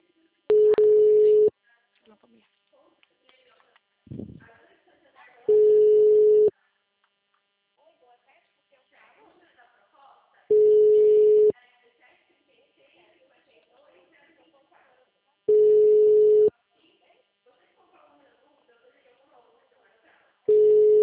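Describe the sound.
A telephone tone during a call: a steady mid-pitched beep that repeats about every five seconds, five times, with quiet talk between the beeps.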